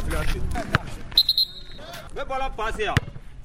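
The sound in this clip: Basketball bounces at a youth basketball training centre in Dar Salaam: a couple of sharp thuds stand out over steady talk and background activity.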